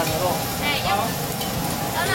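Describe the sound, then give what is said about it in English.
Strips of beef offal stir-fried in a wok of hot oil with onions, chili peppers, basil and sliced ginger, producing a loud, steady sizzle with the scraping rustle of stirring throughout. “A wok of hot oil handful of onions and chili peppers. Basil and sliced ginger lift the flavor. Then it's stir fried with strips of beef offal to create an irresistible entree.”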